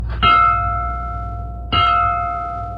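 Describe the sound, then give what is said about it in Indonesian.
A bell struck twice, each clear metallic strike ringing out and fading slowly over more than a second, over a low steady hum. “di kawitan iren ka kuping lonceng tilu kali”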